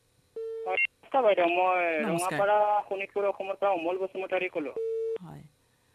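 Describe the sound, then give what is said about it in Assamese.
A listener's phone call being picked up: a short steady electronic tone, then a voice on the line, then the same tone again near the end. “আমাৰ সৈতে আন এজন শ্ৰোতা সংযুক্ত হৈছে, আমি ধৰি লৈছো ফোনটো।”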